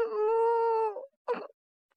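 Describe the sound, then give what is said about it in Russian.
A calf's moo, voiced by a performer in a staged fairy tale: one drawn-out, moaning tone lasting about a second, then a brief rough grunt and silence. “Кто мычал? Я мычал.”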